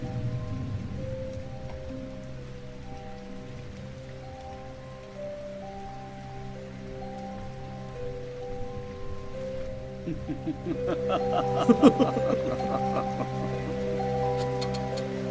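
Steady rain patter mixed with sustained musical tones, growing denser near the end, with sharper ticking drops.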